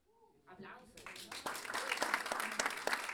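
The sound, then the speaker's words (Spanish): Applause from an audience at a live improvisation performance at a jazz school. A brief voice comes first, then dense clapping swells and carries on steadily and loudly to the end. “Aplausos.”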